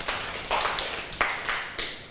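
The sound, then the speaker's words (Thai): A class of students clapping for a classmate during a science lesson on magnets: a few sharp bursts of handclaps at uneven intervals, each quickly fading. “ปรบมือให้กับเพื่อน”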